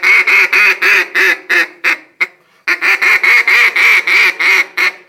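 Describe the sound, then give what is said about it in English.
A duck call blown to imitate a hen gives many quick, nasal quacks in two rhythmic runs split by a brief pause. “You can do multiple quacks like this.”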